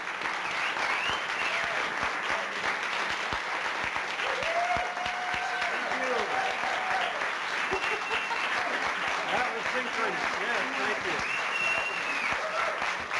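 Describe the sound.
Audience applause for the storytellers at a live storytelling show, a dense, continuous clatter of clapping that runs throughout, with a voice talking over it.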